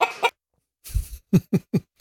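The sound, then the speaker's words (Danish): Loose hens walk around clucking in short, sharp bursts. After a brief silent pause, a quick run of evenly spaced clucks follows toward the end. “Høna er løs. Høna er løs. Mm. Det går faktisk et par høner rundt her”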